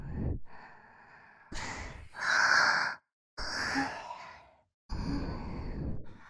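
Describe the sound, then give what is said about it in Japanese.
Soft, breathy sighs and exhalations delivered close into the other ear in an intimate, sensual whisper setting: several long, airy breaths separated by brief silent pauses, with no speech. “もう片方からのお耳からも、いやらしい吐息が聞こえてきちゃいます。”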